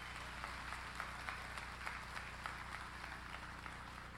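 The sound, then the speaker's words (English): A church audience applauds to welcome another campus and online viewers. The clapping is soft and steady, a continuous patter of hands at an even, low level throughout. “How about everybody in the congregation, just give a hand and welcome the Lockhart campus and everybody that's watching online.”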